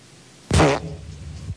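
A single fart comes from someone hiding behind a plant: a sudden loud, raspy burst that trails into a lower, quieter rumble lasting about a second.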